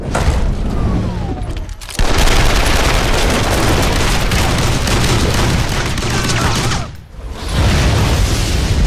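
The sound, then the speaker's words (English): Gunfire sound effects form a loud, dense barrage of overlapping shots and blasts that runs almost continuously, broken by two brief drops in volume. “Hey, got a permit for those guns? I've got your permit right here.”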